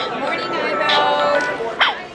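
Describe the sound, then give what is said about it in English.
A Sony Aibo robotic puppy gives a short, sharp electronic bark near the end while voices chatter over it at a consumer electronics showcase. “Cheryl Goodman of Sony is introducing the crowd to her puppy, Ibo. It's cute and slightly creepy in that robotic dog sort of way.”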